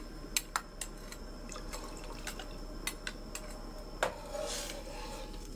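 Soaked, swollen sago pearls are poured into a cooking pot, heard as many faint taps and clinks followed by a brief soft wet pour near the end, all quiet.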